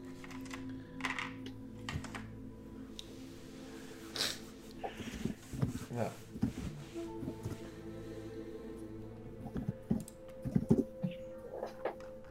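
Computer-keyboard typing as a message is entered into a chat during an online tabletop role-playing session: many quick, irregular keystrokes, fairly faint, over a low steady background hum.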